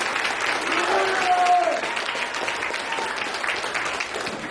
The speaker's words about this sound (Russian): Давайте похлопаем нашим героям,